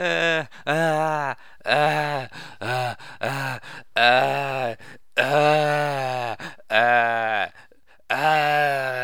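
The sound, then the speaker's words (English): A voice imitates the whining from a horror film scene, producing a long series of drawn-out moaning, wailing cries in separate bursts with short pauses between them, loud and strained throughout. “It's a lot of whining in the scene where he's like,”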